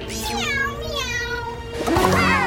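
Kittens in a children's audio story meow in a couple of drawn-out, wavering cries, one at the start and another near the end, over faint background tones.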